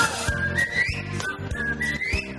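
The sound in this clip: A person whistles a bright, wavering melody over rhythmic music with regular low thumps. The whistled line is clear and prominent above the accompaniment, and no one talks.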